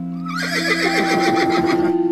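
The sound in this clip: A horse ridden over a heath neighs: a loud, wavering whinny with a rapidly quavering pitch that trembles on for more than a second.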